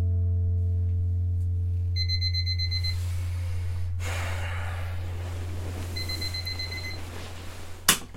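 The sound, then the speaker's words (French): A bedside alarm clock goes off in the morning with high electronic beeping in two separate bursts, each about a second long. A steady low hum runs underneath, and a sharp click sounds near the end. “Le réveil a sonné à 7 heures.”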